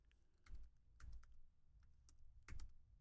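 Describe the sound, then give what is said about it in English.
Keystrokes on a computer keyboard, many quiet taps coming in irregular short clusters with brief pauses between them, with no voices. “I'm just going to type it in. See what happens. Probably typed the wrong thing.”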